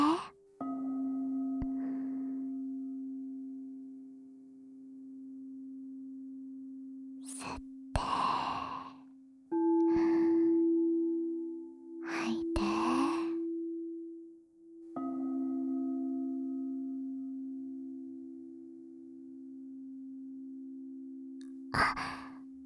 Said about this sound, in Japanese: 呼吸をしてね。はい。吸って、吐いて。